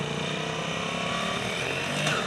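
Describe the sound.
A vehicle engine runs loud and steady as the driver shifts up through the gears, with the throttle a little reluctant. The drone stays constant, with no other sound over it.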